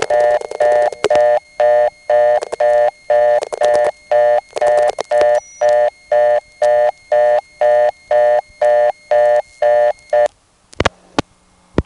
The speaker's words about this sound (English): You could hear some interesting crosstalk there. There were digits followed by the 5800 Hz ANI tone.